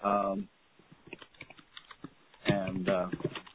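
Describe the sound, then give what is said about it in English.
Computer keyboard typing comes through a conference call as a run of quick, light clicks, heard alone between stretches of talking, with thin phone-line quality. “could you go on mute? We hear your typing.”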